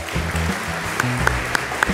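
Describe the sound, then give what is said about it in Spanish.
Audience applause at an awards ceremony honouring a Colombian sports executive: steady, dense clapping with a few sharper claps popping out. Low sustained tones sit underneath throughout the short burst. “Un aplauso, por favor.”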